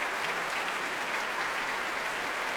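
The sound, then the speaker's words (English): Sustained applause from a concert audience in the Royal Albert Hall, honouring a performer alongside the BBC Symphony Orchestra: a dense, steady patter of clapping with no voices, even in loudness throughout. “the applause and the appreciation for Paul Watkins continues, as you can hear, here in the Royal Albert Hall”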